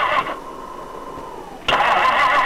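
Car engine cranking but failing to start because of a frozen gas line: a short grind, a thin fading whine, then an abrupt, louder, sustained churn of the starter.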